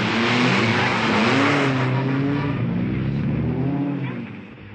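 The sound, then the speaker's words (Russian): A race car's engine drones steadily during a car race in a film, then fades toward the end. “Жан-Луи продолжает гонку, между прочим, в галстуке. Сзади спит его напарник.”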